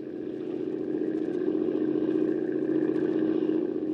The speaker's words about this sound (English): You better shut off the motor